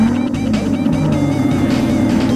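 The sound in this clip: A car's gasoline combustion engine runs with a steady, loud motor drone and a constant low hum. The sound holds at an even level without a clear rise or fall.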